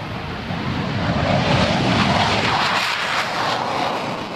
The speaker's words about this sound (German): Der Gripen rollt auf die Startpiste und setzt schließlich zum Start an.